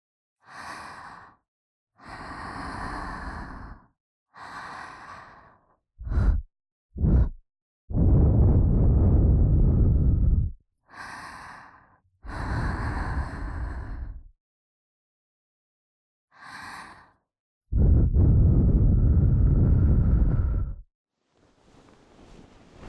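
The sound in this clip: Someone blowing breath: long breathy exhalations and a few short puffs, with softer breathy sounds in between, each separated by silence.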